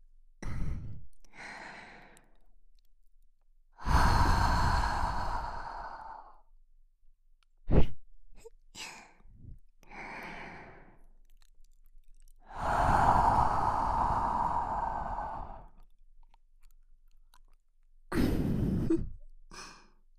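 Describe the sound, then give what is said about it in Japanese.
Sweet, breathy exhaling sighs: three long, airy exhales of a few seconds each, separated by softer short breaths and quick puffs of air, with no words spoken. “私たちの魔力が溶け込んだ甘い吐息で頭の中をクラクラさせる。”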